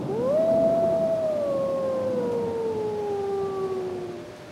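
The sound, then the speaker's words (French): Wolves howling in the distance on a snowy night: one long, clear tonal howl that slides upward, then holds and sinks very slowly over several seconds, with fainter overtones above it and no other sounds. “Au loin, il entend des loups hurler.”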